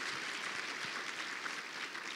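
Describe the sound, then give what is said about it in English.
A church audience gives a round of applause to conference volunteers: soft, steady clapping from many people, faint and even for its whole length. “How many of you guys served at it? Raise your hand. Let's all give them a round of applause.”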